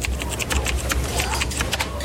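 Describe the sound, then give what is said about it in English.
Typing on a computer keyboard in a classroom: a quick, irregular run of light key clicks over a steady low rumble. “Ooh, type it in.”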